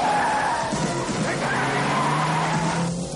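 Car accelerating hard in pursuit during a street chase: a loud, dense, continuous roar of engine and tyre squeal that stays steady throughout.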